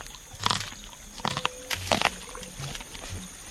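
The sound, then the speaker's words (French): Crunchy bites and chewing on a fresh, sweet corn cob eaten straight from the husk come as a few irregular, moist crunching bursts separated by short quiet gaps. “On va ouvrir l'épi pour regarder. Et alors là, on peut le manger là directement?”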